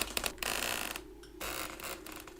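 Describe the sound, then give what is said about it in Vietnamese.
A coffin lid is slowly pried open and pushed aside, giving a grinding, creaking scrape in two long stretches split by a brief pause. “Vợ chồng nhà Phấn Sen cũng không dám làm mạnh tay, cứ thế mà cậy từ từ.”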